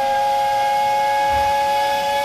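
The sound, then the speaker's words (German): An old steam locomotive waiting at a station platform sounds its whistle in one loud, sustained blast that holds a steady pitch from start to finish. “Schnaubend wartete die alte Lokomotive mit ihren grünen Wagen bereits am Bahnsteig und gab mit einem ungeduldigen Pfeifen zu verstehen, dass sich der Zug jeden Moment in Bewegung setzen würde.”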